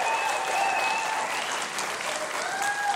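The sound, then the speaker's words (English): Audience applause for a band: a dense, steady roar of clapping that holds evenly from start to finish. “How about a big hand for Trey Corley and the Music City Connection?”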